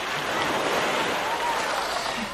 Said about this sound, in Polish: Głównie będę tutaj nad tym wspaniałym lazurowym morzem, które nam tak pięknie szumi i na tej plaży